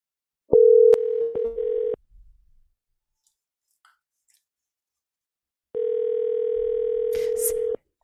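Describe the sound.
Telephone dial tone on a single phone line, heard while dialing: a loud, steady, low hum-like tone that breaks up around a few clicks and cuts off. After a stretch of silence it returns steady and unbroken.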